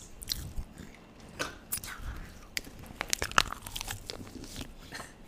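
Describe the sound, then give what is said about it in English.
Crisp biting and crunching of a popsicle at a Fourth of July party, with many sharp, irregular crunches and chewing snaps scattered over a quiet background. “popsicle ASMR”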